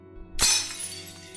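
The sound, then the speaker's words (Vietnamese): Bowls, plates and pots smashed by a drunk man in a rage during a domestic quarrel: one loud, bright shattering crash with a ringing, rattling tail that fades out. “Sau tiếng cút đi đó là những âm thanh đổ vỡ của chén dĩa son nồi bị ba nó trong cơn say đập phá không thương tiếc.”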